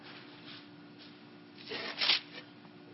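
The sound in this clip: Bible pages are rifled through quickly, making a soft papery flutter that swells into a brief rustling burst, over a faint steady hum.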